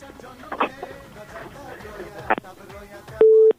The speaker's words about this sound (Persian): بله، فکر میکنم تماس بانو فروهر قطع شده.